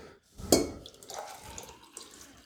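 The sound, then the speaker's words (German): Tea is poured away in a brief splash of liquid, followed by soft trickling and dripping, faint overall. “Ich muss das mal hier wegschütten, sonst habe ich zu viel.”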